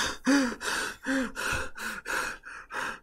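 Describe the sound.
A voice imitates the sudden gasping of a woman who had stopped breathing: a quick series of short, voiced gasps and sighing breaths, evenly spaced and fairly loud, with no other sound.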